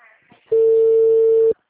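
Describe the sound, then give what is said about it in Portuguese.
A single steady telephone tone sounds for about a second during a call that goes unanswered and is forwarded to voicemail. It is a loud, even, mid-pitched beep that cuts off abruptly after a brief faint voice. “Ai, gente, ninguém quer me atender, senhor. Atende, por favor, vai. Chamada encaminhada para a caixa postal.”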